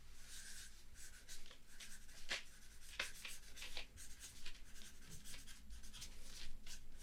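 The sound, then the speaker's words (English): Someone writes something down with many quick, scratchy strokes and rubbing sounds, steady and continuous, with a few sharper scrapes standing out. “I'll write that down over here.”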